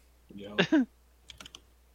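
Typing on a computer keyboard: a few quick, light clicks of keystrokes in a short cluster. A brief vocal sound comes just before them.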